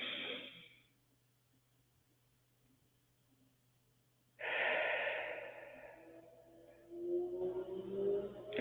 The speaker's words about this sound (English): take a deep breath with your diaphragm. Let that belly out.